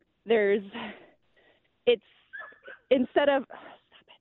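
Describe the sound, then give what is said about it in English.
A dog barks in a run of short, high yips and barks, some with a whimpering edge, spaced in irregular bursts with quiet gaps between. “Sorry. We like dogs.”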